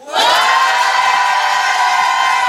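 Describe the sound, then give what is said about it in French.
An audience cheers, whoops and shouts on request, a loud sustained roar of crowd noise that swells quickly at the start and holds steady to the end. “Que ceux qui pensent que Jérôme est coupable fassent du bruit.”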